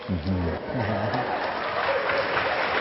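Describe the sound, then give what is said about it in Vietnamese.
Audience applause during a teaching session, a sustained clatter of many hands that carries on evenly, with a man's voice heard over it at the start. “Các bạn vỗ tay đó là thể hiện cái sự tán dương về lòng chân thật và bản lĩnh thú tội.”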